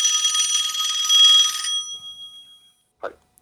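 A telephone rings with an incoming call: a bright, rapidly trilling electronic ring holds for under two seconds, then dies away into silence.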